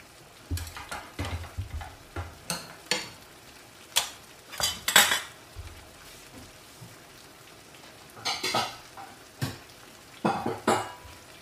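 A spoon clinks and scrapes against dishes and pans while a cilantro-flavored dish is cooked. Many short metallic clatters come in irregular bursts, with no talking.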